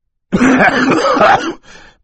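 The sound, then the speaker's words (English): A throaty cough into a handkerchief: one drawn-out, rasping burst, loud and alone, trailing off into a softer, breathy tail. “Mr. Poe coughed once more into his handkerchief and left the room.”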